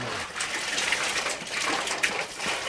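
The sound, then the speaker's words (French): Hot water mixed with an herbal preparation is poured over a person's body during a cleansing ritual, giving a continuous splashing, gushing hiss with small surges throughout. “Et il prend cette eau chaude, remplie de préparation, qu'il passe sur son corps.”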